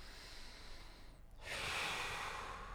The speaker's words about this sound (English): Take a deeper breath.